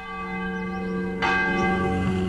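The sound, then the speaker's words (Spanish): Church bells ring out in Guanajuato. A rich metallic hum sustains throughout, and a fresh bright strike arrives midway, followed by a long resonant ringing. No voices are heard. “Imagínate escuchar las campanas de la iglesia del cura.”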